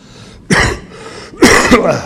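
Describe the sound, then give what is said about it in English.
Someone clears their throat in two harsh, rasping bursts, followed by a smaller rough catch, over a faint steady hum. “Excuse me, I get a little tickle in my throat.”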